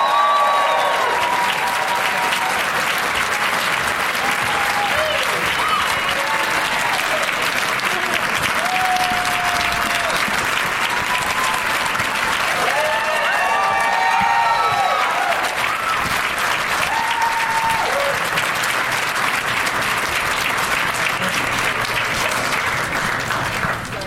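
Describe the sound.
A studio audience applauds as three guests walk out onto the stage of a talk show. The clapping is loud, dense and steady, and it continues without a break for the whole stretch.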